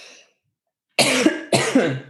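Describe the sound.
A woman coughs twice from pollen caught in her throat during hay fever. The two sharp, loud, rasping coughs come in quick succession after a moment of silence.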